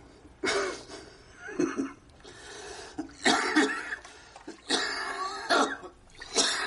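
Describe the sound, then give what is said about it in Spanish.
A man coughs repeatedly while smoking, with harsh, throaty bursts and rough throat-clearing in between. The fits come in an uneven series at moderate loudness, with no talk. “le mira con preocupación mientras tose y fuma a la vez”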